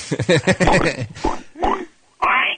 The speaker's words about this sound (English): Pig? Yeah. Yes, just that's a pig.